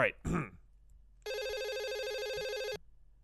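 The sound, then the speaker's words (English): A telephone rings once during an outgoing call, a steady buzzing tone lasting about a second and a half, heard after a brief bit of speech and followed by near quiet. “it's ringing”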